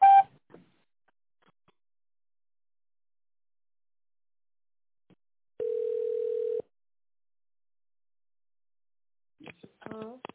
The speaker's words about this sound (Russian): Наберите добавочный номер в тоновом режиме после сигнала или дождитесь ответа оператора.